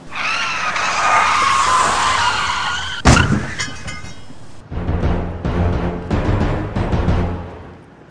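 A loud, sustained tire screech as a motorcycle skids to a stop, followed by a sharp crash and a stretch of rattling clatter as the rider falls.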